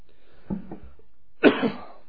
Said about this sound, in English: I have a bit of a cough.